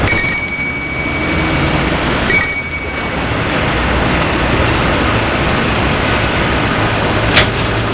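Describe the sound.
A doorbell rings at a house: two bright, ringing chimes a couple of seconds apart, each with a short sustained tone that fades, over a steady background hiss and without any voices.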